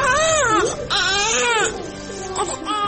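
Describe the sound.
A baby cries in loud, continuous wails that rise and fall in pitch, with a brief break near the middle. The baby has been crying since morning because its milk has run out.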